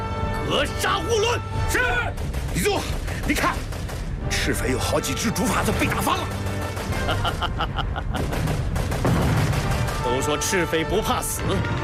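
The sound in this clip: Machine-gun and rifle fire in a battle over a river crossing by bamboo rafts forms a dense, continuous racket of rapid cracks and heavy thuds, layered under shouting voices.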